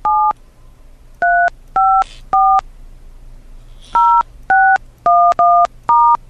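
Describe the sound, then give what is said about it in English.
Telephone keypad tones sound as a number is entered to reach a voicemail mailbox: nine loud, sharp beeps in uneven groups, some in quick pairs, over a faint steady hum. “To access your mailbox, enter your telephone number, then press star during the greeting.”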